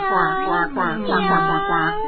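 A cat meowing: a few drawn-out, wavering, fairly loud meows in close succession, with no other voices.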